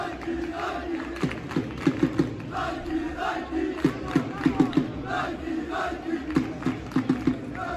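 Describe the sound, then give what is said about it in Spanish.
A stadium crowd gives an ovation to a player named Daiki after a match, with faint chanting punctuated by sharp, regular clap-like beats that repeat in bursts. “yo creo que tenemos un audio por ahí que se muestra claramente cómo le ovacionaban el otro día mismo tras finalizar el partido a Daiki.”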